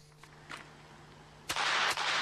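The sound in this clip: Gunshots ring out during shooting practice at a range in Kauhajoki. A few faint cracks are followed by louder sharp bursts near the end, with quiet between them.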